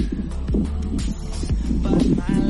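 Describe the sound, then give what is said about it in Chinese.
An electric fan running for cooling gives a steady, fairly loud low whir and hum that lasts throughout, with a faint rhythmic throbbing in its drone. “吹那个电风扇降温一下就没事了。 哎、欸，很大声是不是？ 嗯，也没有还好，但就听得出来。”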